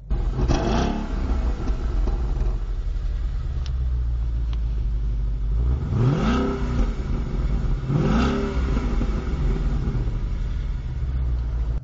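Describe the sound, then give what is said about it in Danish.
A 2016 Ford Mustang GT V8 idles with a deep, steady rumble that runs through the whole clip, and two sharp rising revs surge up past the midpoint. “Og så er der startknappen. Og der skete ikke noget. Vi prøver igen. Sådan. Så starter vi i V8'eren.”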